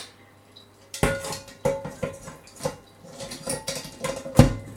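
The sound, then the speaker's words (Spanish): Metal clatter of a frying pan being set over another frying pan to cover a potato omelette: a few sharp clanks and knocks at uneven intervals, with light scraping between them and no talk. “Con una palita aplastamos todas las patatas para que queden parejas en la sartén. Y ahora tapamos con la otra sartén.”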